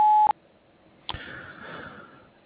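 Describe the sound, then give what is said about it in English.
A voicemail recording tone sounds as one steady, mid-pitched electronic beep. It cuts off abruptly with a click, leaving faint line hiss and a soft clunk. “Please leave a message after the tone. Thank you. At the tone, please record your message.”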